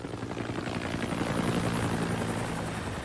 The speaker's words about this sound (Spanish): Lo llevaron afuera donde un helicóptero lo esperaba para llevarlo al hospital.